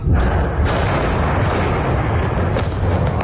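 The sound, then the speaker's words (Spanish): Israeli bombing at night in eastern Lebanon's Bekaa Valley, a loud, continuous rumbling roar of explosions with a few sharper bursts standing out near the end. “Sonido de esos bombardeos.”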